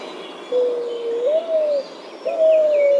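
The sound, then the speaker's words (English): A Mourning Dove coos in two soft, hollow, low phrases. The first is drawn out and lifts slightly partway through, and a shorter second phrase follows after a pause, over faint background noise. “Mourning Dove.”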